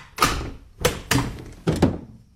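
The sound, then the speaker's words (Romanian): A door is opened with a few heavy, hollow wooden thuds and knocks, each a sharp broad impact that decays quickly, the last two coming close together. “Atunci iedul mezin, care acum era și cel din tâi și cel de pe urmă, sare iute și îi deschide ușa.”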